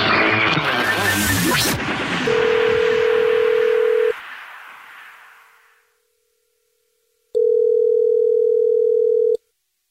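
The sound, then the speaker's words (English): Telephone tones as a call is placed to a listener: after a noisy opening burst, a steady electronic tone sounds, fades into near silence, then a second long tone of about two seconds follows. “this is the Jubal Show calling to ask you what it is”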